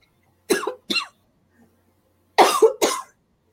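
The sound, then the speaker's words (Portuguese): A person coughs after choking on saliva: four harsh coughs in two pairs, with a short pause between the pairs, alone against silence. “Desculpa. Engasguei com a saliva, gente, me perdoe.”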